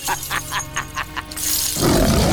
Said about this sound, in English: bares his sharp teeth as he roars